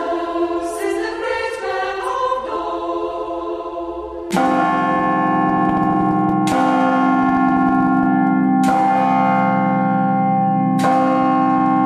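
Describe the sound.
Church bells are rung by bell ringers. A quick tumbling run of lighter bells gives way to four loud, deep, resonant strikes about two seconds apart, each with a long ringing decay.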